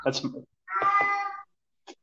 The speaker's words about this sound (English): So that's my cat, by the way.